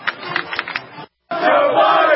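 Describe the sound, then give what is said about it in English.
Crowd at the 9/11 Memorial jeers Joe Biden. A rhythmic shouted chant gives way to a brief dead-silent cut, then a loud, sustained roar of crowd noise. “Just play some of the football, some of the baseball, and then him getting booed at the 9/11 Memorial. Here it is.”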